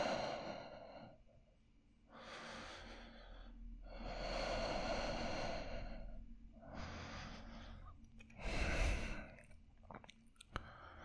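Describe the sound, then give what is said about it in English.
Slow, heavy human breathing, quiet and alone, with about five long drawn breaths separated by short pauses and a sharper, louder breath near the end. “Just listen to my breath.”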